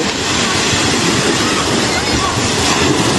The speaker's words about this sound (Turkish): Tepeden kopan toprak kütlesi hızla denize doğru aktı.